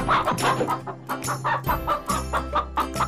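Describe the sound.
A chicken clucks in a quick run of short, rough, repeated bursts, about ten in a row, each a brief choppy cackle. Low steady tones hum underneath.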